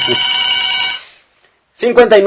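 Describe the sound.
A telephone ring sound effect: one steady, bright electronic tone lasts about a second and then cuts off. After a short silence, a voice begins speaking.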